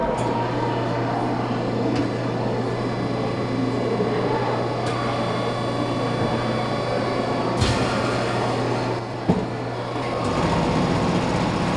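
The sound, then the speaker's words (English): Rumbling from a Mold-A-Rama vending machine molding a yellow plastic chick: a steady, continuous low rumble and hum with a couple of brief clicks and a shift in tone near the end. “Lots of rumbling. And then eventually out popped a warm yellow plastic chick.”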